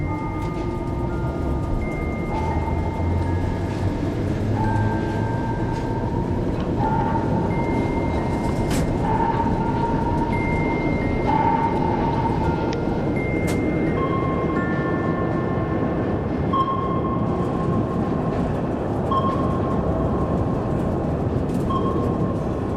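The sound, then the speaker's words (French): A metro train on an underground line 11 platform gives a loud, continuous rumble and rush that fills the whole stretch. Whining motor tones shift in steps from one pitch to another throughout. “plusieurs mètres sous terre, sur le quai de la ligne 11 du métro”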